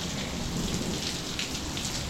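Rain falls during a wet day outside an off-the-grid home gym. The dense, even hiss of drops on surfaces holds steady from start to finish, with no voices.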